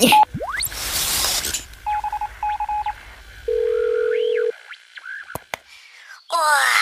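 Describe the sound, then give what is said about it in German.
An electronic calling signal from a radio communicator on a space suit belt: a noisy burst and a rising sweep, two clusters of quick beeping tones, one longer steady tone, then warbling glides and sharp clicks. “X-Funker, an meinem Raumanzuggürtel, bitte einmal Lotti Maus anrufen.”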